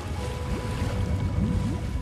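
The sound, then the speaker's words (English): Rushing water and wave noise surround Doolittle's sinking ship, the Water Lily, a steady, moderately loud wash of sound with no voices. “Doolittle's ship sinks. The name on the back reads Water Lily.”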